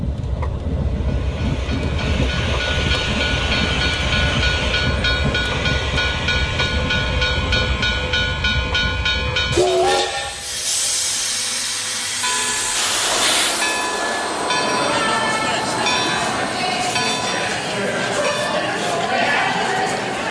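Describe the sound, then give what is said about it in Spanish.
A train arriving at Sants station gives a steady rumbling clatter with hissing over it. Partway through, the sound shifts abruptly to a different, thinner texture of rolling and hiss. “Próxima estación, Sants.”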